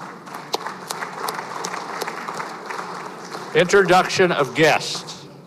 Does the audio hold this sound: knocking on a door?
no